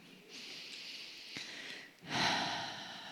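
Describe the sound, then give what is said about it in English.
A deep breath is drawn in during a guided relaxation. Soft, airy breathing is followed near the end by a louder, fuller inhale. “So why don't you just take a deep breath now”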